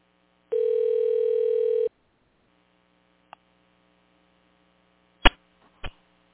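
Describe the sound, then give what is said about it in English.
A steady telephone dial tone holds for about a second and a half over a low mains hum. A quiet gap follows, then three sharp clicks as the call is placed. “Here we go. Let's dial it up.”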